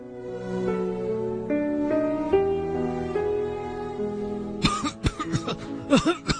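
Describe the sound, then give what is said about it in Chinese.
A person coughs hard, a rapid cluster of several harsh, throaty coughs in the latter half, after a stretch of sustained, steady tones. “没事啊，不好意思啊，我是不是咳醒了你啊？”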